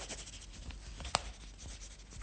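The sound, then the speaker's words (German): Pen writes on a release certificate with soft, scratchy strokes across the paper and a single sharp click midway, all at a low, quiet level. “Jetzt werde ich Ihnen erstmal einen Entlassungsschein von uns geben. Darauf bekommen Sie Ihr Entlassungsgeld ausgezahlt. So, und da schreiben Sie mal.”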